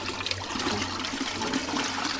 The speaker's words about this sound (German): Hess öffnet die Tür, holt das Gefäß heraus und gießt den Inhalt über einem Sieb ab, wie ein Goldwäscher.